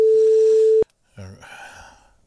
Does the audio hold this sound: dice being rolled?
no